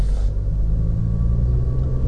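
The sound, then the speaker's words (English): Cars passing through a busy street intersection near a medical center make a loud, steady low rumble that continues without a break, with no talk. “So many cars, so many people on the street.”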